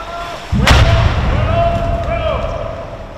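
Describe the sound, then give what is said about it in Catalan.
A navy detonation of an explosive device underwater, a few metres from the shore: one sudden, loud, deep boom followed by a long rumbling roar that slowly fades. “van detonar ahir fa 24 hores, cap a les 12 del migdia, va explotar dins de l'aigua, però això sí, a pocs metres de la vora de la mà. Així va sonar l'explosió, la detonació d'aquest artefacte.”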